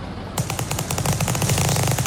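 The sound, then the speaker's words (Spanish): Gunfire from gangsters shooting: a loud, rapid rattle of many shots in quick succession, starting a moment in and continuing without a break as a dense automatic burst. “¿Qué es eso? Pues que están disparando, pues mira, los están matando.”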